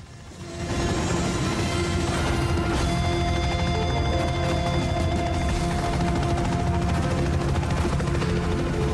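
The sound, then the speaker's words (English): Helicopter taking off as bullets hit its side, with a light aircraft also taking off nearby. A loud, continuous roaring engine and rotor drone swells in within the first second and holds steady, with scattered sharp impacts and crackle. “He lies down on the floor of the chopper as bullets pepper its side. The chopper and the aircraft take off.”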